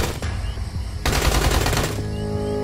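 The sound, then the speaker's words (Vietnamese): A machine gun fires at a frontline outpost at night: a rapid, dense burst of shots lasting about a second, set against steady background noise. “Tiếng súng nổ rang.”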